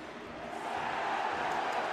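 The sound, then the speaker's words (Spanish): A stadium crowd at a professional football match between New York City and Portland roars after a foul, demanding a yellow card. The loud, dense crowd noise is steady and swells slightly. “Tajuri Sradi comete una falta sobre Zubaric. El público pidiendo tarjeta amarilla.”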